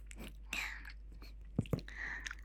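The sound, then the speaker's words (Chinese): Soft, wet chewing of sweet durian, with faint mouth noises and a couple of sharper biting clicks near the middle. “今天的榴莲特别的甜，特别的好吃，相信你一定会喜欢的。”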